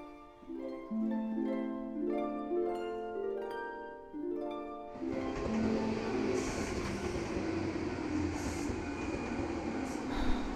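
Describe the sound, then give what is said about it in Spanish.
A train arriving at a wartime railway station, heard as a steady broad rumbling and rushing noise of rolling cars. It follows about five seconds of melodic musical tones. “Ya llega mi tren.”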